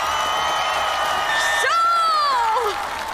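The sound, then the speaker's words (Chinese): A crowd cheers and shouts for a street dance troupe at a competition. The roar stays loud and steady, and a long high shout rises above it and falls in pitch toward the end. “喜欢我们的在哪里？支持新一街舞蹈团的呐喊声！”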